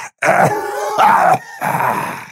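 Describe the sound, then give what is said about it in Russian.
Hoarse, rasping coughs from an undead lich: three rough, throaty bursts in quick succession, loud and alone. “Лич попытался было улыбнуться, но вновь закашлялся.”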